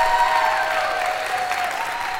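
Audience applause welcoming a guest, a prison reform activist, to a discussion. Steady, dense clapping fills the whole clip.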